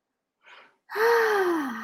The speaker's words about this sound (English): I just want to take a breath and stop there.